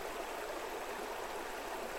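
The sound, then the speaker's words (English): Water runs in a steady, even rush with a soft hiss, fairly quiet and uninterrupted from start to finish, with no voices. “There's just a quality to the water running that I didn't notice till I took these off.”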